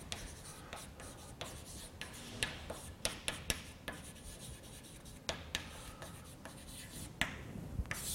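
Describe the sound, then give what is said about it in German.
Chalk writing on a blackboard during a lecture: quiet, irregular scraping strokes punctuated by many sharp taps as letters are formed, with no talk. “Ich schreibe es mal gerade an, für die, die nur das Tafelbild sich anschauen.”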